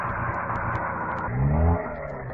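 A droning airplane engine running in flight, a steady low hum with layered harmonic tones that swells louder for a moment partway through.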